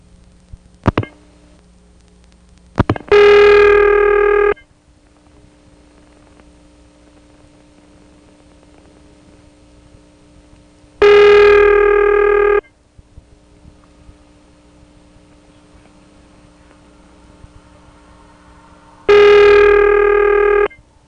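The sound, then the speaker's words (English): Dialing tones on a telephone trunk line: a couple of sharp clicks, then three long, steady, loud tones separated by quiet gaps, with a constant low hum underneath throughout. “Okay, I'll take the filter off and continue dialing.”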